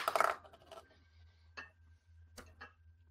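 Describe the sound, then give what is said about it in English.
Dice tumbling out of a dice tower: a loud clattering burst, then a few scattered, lighter clicks and taps as they settle, over a faint low hum. “Whoops, that rolled out of my dice tower.”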